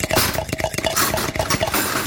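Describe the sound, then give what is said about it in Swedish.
A large whisk beats eggs and sugar in a large bowl into a light, airy batter. Metal wires clink and scrape against the bowl in a fast, steady rhythm, with a continuous swishing wash underneath. “Och sen tar vi och vispar ägg och socker till en porös liten smet.”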